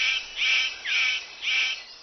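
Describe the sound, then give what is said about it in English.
A male superb bird of paradise calls to attract a female, giving a few loud, harsh, rasping calls in a steady rhythm, each about half a second long and separated by short gaps. “The superb bird of paradise calls to attract a female.”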